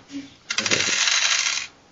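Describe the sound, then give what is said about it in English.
Dice clatter as a player grabs a handful of them during a tabletop role-playing game session. A quick burst of small, bright clicks and rattles lasts about a second over faint background. “Now I need to fish out my D6s. Don't mind me. There are no D6s in that handful. You fail at grabbing dice.”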